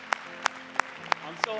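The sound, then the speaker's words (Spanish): Five sharp, evenly spaced claps mark audience applause at a Spanish-language church service, crisp hits in a steady beat with a voice speaking between them. “Vamos a darle un aplauso al Señor.”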